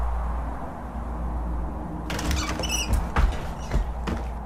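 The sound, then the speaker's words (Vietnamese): A window shutter on a village house's veranda knocking against the wall in the wind: a steady low rushing noise, then, after a couple of seconds, a few thin squeaks and soft irregular knocks over it. “cánh cửa sổ bên phía hiên đang chuyển động. Có lẽ do gió thổi cho nên cánh cửa khẽ đập vào trong tường.”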